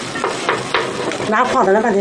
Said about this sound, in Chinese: 直接铺在煎饼上，折叠包裹严实，再在鏊子上烙。